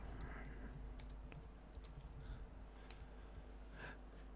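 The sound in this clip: Keys click on a computer keyboard while someone types a comment. The faint, irregular keystrokes come in short runs with brief pauses between them, with no voices.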